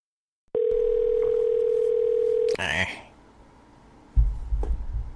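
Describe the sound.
A steady telephone tone holds on the line for about two seconds, cut off by a crackling burst, followed by quiet and then people talking.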